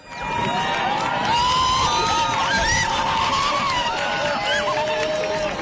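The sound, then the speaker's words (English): Crowds in southern Spain cheer loudly as the sun disappears during a total solar eclipse. Sustained roaring is topped by high whoops, shouts and whistle-like rising calls. “crowds cheer as the last of the sun hides behind the moon during today's total eclipse of the sun.”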